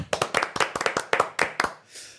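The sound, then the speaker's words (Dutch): Sharp, separate hand claps from a few people greeting new donors, coming in an uneven run of about a dozen crisp slaps before stopping short, followed by a faint hiss. “Ik zeg een applaus.”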